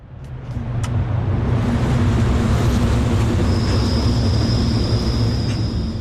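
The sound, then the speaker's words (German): Street and tram noise outside the Museum für Gestaltung at the Toni-Areal entrance in Zürich: a broad, loud rolling rumble that swells in and stays heavy. Partway through, a thin, high metallic wheel squeal joins and persists. “So tönt es beim Museum für Gestaltung vor dem Eingang zum Toni-Areal.”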